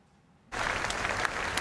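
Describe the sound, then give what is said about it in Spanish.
Applause from thousands of people at a vigil near the Brandenburg Gate in Berlin for the victims of a vehicle-ramming attack on a Pride crowd. After a brief quiet start, dense, steady clapping sets in abruptly and continues. “Aplausos por las víctimas del último atropello múltiple en Berlín.”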